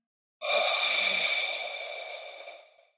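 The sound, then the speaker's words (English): A long, steady breathy exhale pushed through rounded lips with the tongue dropped, starting abruptly, holding for over two seconds with an airy hiss, then fading out gently. “Now we drop our tongue, round our lips, and exhale.”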